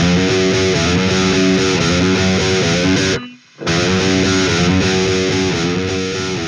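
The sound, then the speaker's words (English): Distorted electric guitar riffing through a Peavey Revolver HP amp simulator, a dense, loud, chugging stream of heavy notes that continues steadily with one short silent break about halfway through. “What you just heard there was a little guitar riffing done with Revolver HP by Peavey, a guitar amp simulator.”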